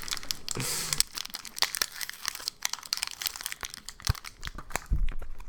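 Crinkling of a classic cherry scented package being pulled open: a dense, irregular stream of sharp, dry plastic crackles and tearing rustles, fairly loud throughout, with a couple of heavier crunches near the end and no voices.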